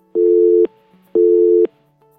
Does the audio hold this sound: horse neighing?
no